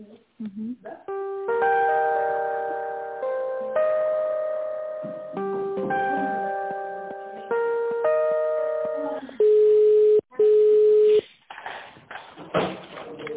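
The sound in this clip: Telephone line tones while a call is transferred: a tinny electronic melody of held, chord-like notes, then two loud, steady beeps, then faint line noise, all with a narrow, phone-like sound.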